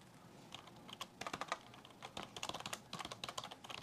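Typing on a computer keyboard: faint, rapid keystrokes clatter in uneven bursts with brief pauses between runs.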